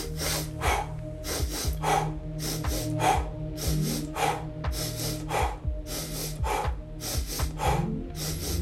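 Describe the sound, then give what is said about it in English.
A breathing exercise for stress follows a double inhale, single exhale pattern: quick paired sniffs and a short blown breath repeat many times in a steady rhythm over a low, sustained music bed. “Double inhale, single exhale.”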